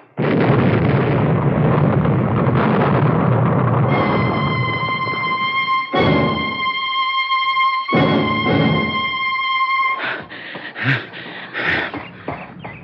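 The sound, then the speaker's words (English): A bomb explosion hits as a loud, sustained blast roar that slowly thins out. Steady high ringing tones and scattered lighter crackles follow as the noise dies down. “Well, now maybe you'll believe me. You know that bomb was meant for me?”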